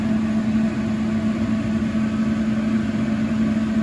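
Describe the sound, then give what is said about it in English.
A kitchen ventilator fan running during cooking, pulling smoke upward: a steady, even drone with a constant low tonal hum under broad airy noise, unchanging throughout, with no voices. “The ventilator sucks out the cold air, but it also sucks out the hot air too, so it is what it is.”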